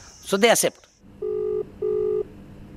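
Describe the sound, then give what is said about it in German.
Two steady electronic ringing tones sound as a telephone call is placed, each lasting under half a second, evenly spaced and moderately loud, following a brief spoken voice at the start. “Ein Anruf bei Namita Bandare.”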